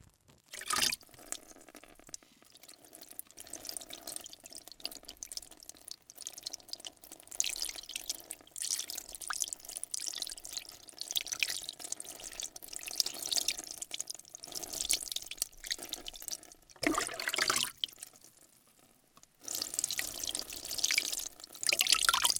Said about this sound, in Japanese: では、髪の毛のトリートメントを流しますね。